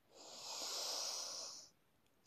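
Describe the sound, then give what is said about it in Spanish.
A deep inhale during yoga breathing practice: a steady, airy hiss that swells and holds for about one and a half seconds, then cuts off abruptly, followed by a faint click. “Inhala.”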